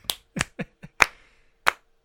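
Hand claps keeping a rough beat while a rhythm is being built, sharp isolated smacks spaced unevenly, with several quick hits early and two brighter, louder claps later, each cut off cleanly into silence.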